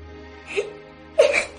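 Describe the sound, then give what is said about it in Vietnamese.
A child bursting into tears: two brief, breathy sobs, the second louder and longer with a shaky, whimpering catch. “môi nó run lên, mắt mờ đi và nó òa lên khóc.”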